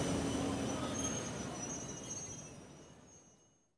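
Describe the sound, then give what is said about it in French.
A train arrives at a station platform, a loud, steady rumble of wheels on rails with a thin, high squeal running through it, slowly fading away toward the end. “Le train 8664 à destination de Rambouillet va entrer en gare quai F.”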